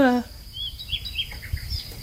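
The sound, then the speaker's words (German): Small birds chirp in faint, high, scattered tweets over a low rumble, after a brief voiced tone at the very start. “Oh, hey, warte mal, ich habe hier was vergessen. Die Vögelchen!”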